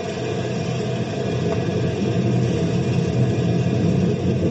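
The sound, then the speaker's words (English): A lifting device engaged in gear gives off a steady, low mechanical rumble that runs unbroken and fairly even in level, with no voices. “Throw the lifting device in gear.”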